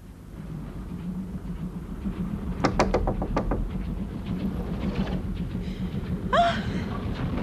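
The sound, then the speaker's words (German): Knocking on a compartment door inside a train: a quick run of several sharp raps stands out over the steady rumble of the moving railway carriage. “Ich ging zurück und klopfte an die Tür meiner Freundin.”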